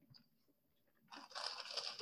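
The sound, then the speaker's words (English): A birthday-cake-flavored snack with sprinkles is crunched and chewed, with near quiet followed by a short burst of crisp, gritty crunching in the second half, soft overall and without talk. “All right, so let's move on to the birthday cake. We've had these before. Oh, this has sprinkles in it, yeah.”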